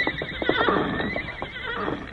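A horse whinnies with a high, wavering call over a dense, noisy background, while a few hoof clops punctuate the sound.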